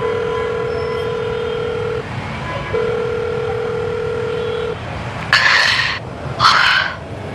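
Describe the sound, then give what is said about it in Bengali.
Telephone dial tone as a call is placed after crossing a street: a steady low tone in two long stretches over constant rumbling background noise, then two short harsh bursts. “রাস্তা পার হয়ে সে একটা phone করল।”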